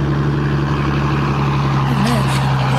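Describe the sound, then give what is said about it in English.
Steady low engine drone of a car reversing past a shop, an even, unbroken hum that holds at one level from start to finish. “He's going backwards. He'll probably reverse past the shop and then turn and drive round to the back.”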